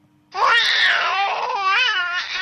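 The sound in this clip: A colicky baby cries loudly and continuously in long, wavering wails with a harsh, strained edge, the cry barely easing throughout.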